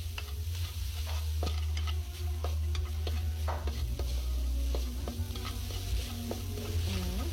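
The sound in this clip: Sizzling of coco beans and white onions in a hot pan as they brown, a loud, steady frying hiss broken by a few light scrapes and clicks of stirring.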